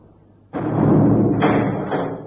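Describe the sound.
A temple door mechanism, shaped like a dragon's mouth, slams shut with a sudden heavy thud and then a loud, sustained low rumble that fades slowly.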